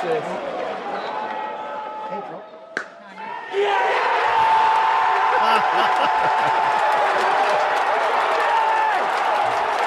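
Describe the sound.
A cricket crowd roars as the winning run is scored with scores tied on the fourth day at Headingley, Leeds. A voice and a murmuring crowd come first, then a brief sharp knock, then a huge sustained wave of cheering.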